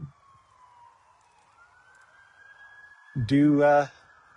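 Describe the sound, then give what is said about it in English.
Emergency vehicle sirens, RCMP arriving from Chetwynd, sound as a faint, steady wailing tone that slowly glides upward in pitch before a voice briefly cuts in at the end. “We have more emergency vehicles. Sounds like RCMP coming in from Chetwynd.”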